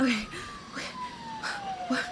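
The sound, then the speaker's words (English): Sirens wail faintly under people talking, a thin, steady tone gliding slowly downward in pitch. “what's with all these sirens?”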